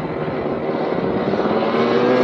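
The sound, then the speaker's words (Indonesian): A speeding motorcycle gives off a loud, continuous engine roar that holds steady throughout, with a dense rumbling low end and no voices. “karena tergesa-gesa, Kak Vino mengendarai sepeda motor dengan mengebut.”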